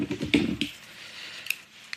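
Lead foil capsule being cut and peeled from the neck of a wine bottle: a brief burst of crinkly scraping, then two sharp, faint clicks spaced apart in the quiet.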